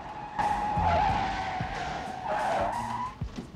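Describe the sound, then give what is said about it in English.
Tires squeal as a police car skids to a stop, a long high screech over engine noise that eases briefly and then swells again before cutting off. “Then a third police car stops in the street and an officer gets out and starts running.”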